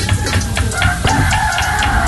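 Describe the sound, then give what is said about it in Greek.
Chickens clucking with a rooster crowing, a loud, steady flock din in which a sustained crowing call stands out over the second half. “Κοτόπουλα είναι όλα.”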